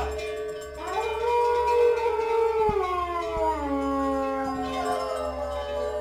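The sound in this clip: An actor imitates the howl of an Iberian wolf with his voice: one long sustained howl that rises, then slowly sinks in pitch, with a few faint clicks behind it.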